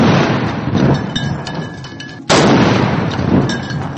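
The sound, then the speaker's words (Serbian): Cannon salute fired in Belgrade for Statehood Day: a heavy, sustained rumbling roar with one sudden loud blast about halfway through, after which the deep roar carries on as loudly as before. “Iz topova se pucalo zbog dana državnosti”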